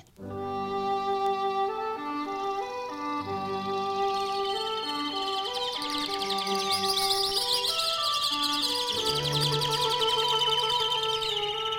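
Birdsong set within orchestral music for cor anglais, clarinet, flute and cello, the birds treated as a sextet. Sustained melodic wind and string tones play throughout, with bright, high chirps and trills growing busier in the later half.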